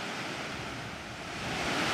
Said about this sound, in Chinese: 顺流而上，我们在三叠岭瀑布的上游看到了一个地下洞穴。令专家关注的是，这个瀑布的源头竟然直通地下。